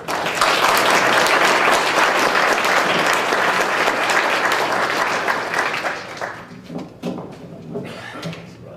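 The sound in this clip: Loud, sustained applause from an audience welcoming a speaker at a political movement gathering in Texas. It stays dense and steady for about six seconds, then thins into scattered claps.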